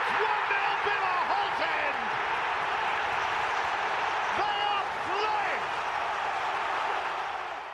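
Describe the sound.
A football crowd roars at the Holte End after a Premier League goal, a dense, loud and sustained wall of cheering with voices throughout that eases slightly at the end.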